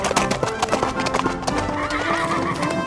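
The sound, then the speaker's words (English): A horse at a light gallop gives many rapid, loud clip-clop hoofbeats in a steady rhythm, with a whinny toward the end. “Okay, let's try a trot. That was great. Now let's do a light gallop.”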